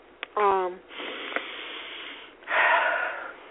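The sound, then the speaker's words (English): A deep breath, heard as two long, breathy rushes of air, the second louder and fuller. A brief voiced sound comes just before them. “had to take that deep breath”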